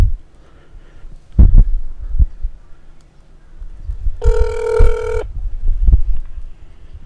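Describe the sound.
A phone rings during an outgoing call to a Pizza Hut. A single buzzy, harmonic ring lasts about a second, surrounded by low, dull thumps.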